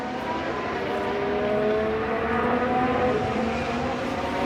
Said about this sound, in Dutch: Het geluid van de zescilinder hybride motoren klinkt bescheiden.